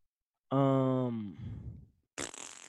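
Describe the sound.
A person imitates a fart with the mouth: a loud, buzzing voiced blast under a second long that sags in pitch at the end, then a softer sputtering tail and a short rough burst of noise.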